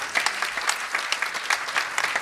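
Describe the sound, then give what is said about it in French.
Steady applause from an audience honoring a choir leader, dense clapping sustained evenly across the whole clip with no single voice standing out. “je voudrais qu'on applaudisse Lisette Van Beek, qui est la chef de chœur de notre groupe La Canaille.”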